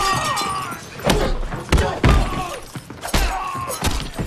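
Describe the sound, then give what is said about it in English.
Sharp thuds and cracks of thrown knives striking targets in a violent film fight scene. Several loud, sudden impacts stand out over a dense, busy soundtrack. “One particularly vivid and violent scene from John Wick 3 features knives being flung around like the bullets from a machine gun.”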